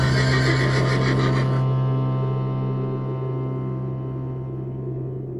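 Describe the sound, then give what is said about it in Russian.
A horse neighs, a loud, sustained harmonic whinny that starts bright and strong and then slowly fades out. “И вдруг конь что-то учуял, уши навострил и заржал.”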